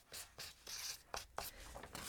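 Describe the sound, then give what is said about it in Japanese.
A pen writes big letters, making a series of short, scratchy strokes. Each dry scrape is separated by a brief pause, and the rhythm is uneven. “これはでもそっちの人たちはかなりでかい字で書くねでかい字で書くね”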